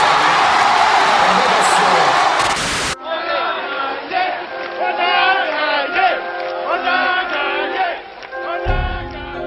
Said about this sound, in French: Résultat salué par une ovation de ses supporters.